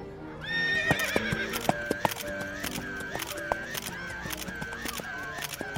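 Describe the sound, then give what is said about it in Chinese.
A horse runs past a row of cameras that fire one after another. A whinny sounds at the start, then many rapid mechanical shutter clicks repeat in a steady rhythm alongside hoofbeats and a recurring tonal chirp. “我要让马从相机前面跑过去，从第一台开始逐一的拍照，尝试捕捉马奔跑时的不同瞬间。”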